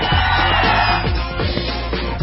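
A crowd cheers at a political rally for immigration reform, with sustained yelling and whooping that stays loud and dense throughout.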